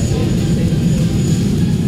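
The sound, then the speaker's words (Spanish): The engine of a Chilean Air Force airplane carrying Chile's president as it arrives: a steady, loud, low roar with a faint high whine above it, constant throughout. “ha llegado el avión de la Fuerza Aérea Chilena en el cual se traslada el mandatario chileno”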